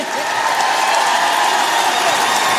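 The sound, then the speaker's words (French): A crowd applauds and cheers after a band's live performance, a dense, steady wash of clapping and crowd noise that holds at a loud level. “Faites du bruit.”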